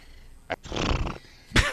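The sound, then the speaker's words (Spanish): A man imitates a horse neighing in a few breathy, rasping bursts: a short puff, a longer shaky whinny, then another sharp burst, fairly loud against a quiet background. “Qué bien relincha usted como un caballo.”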